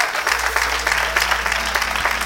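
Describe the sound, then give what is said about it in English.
A church audience applauds with hand claps during a service: a dense, continuous wash of many hands clapping that holds steady from start to finish with no single claps standing out. “let's give him a hand clap”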